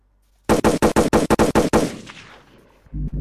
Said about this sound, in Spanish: Salen tiros.